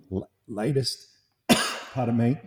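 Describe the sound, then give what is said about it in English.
A lingering cough after COVID: one sharp, harsh cough burst set among short throaty vocal sounds, moderately loud. “Yeah, a little bit of remnant COVID. Just COVID cough going there. Yeah. Just coming back to haunt me.”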